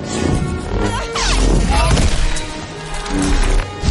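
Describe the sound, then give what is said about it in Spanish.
Lightsaber blows crash and split trees during a duel in the 2015 science-fiction film Star Wars: The Force Awakens. Loud, dense crashing, cracking and whooshing continue without a break. “Ella ataca. Ambos parten árboles con algunos espadazos.”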